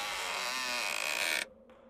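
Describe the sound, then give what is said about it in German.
A heavy crypt door creaks open with a long, loud, steady groan that holds for about one and a half seconds, then cuts off abruptly and leaves faint quiet. “Mit zitternden Beinen steige ich hinunter und öffne die schwere Tür.”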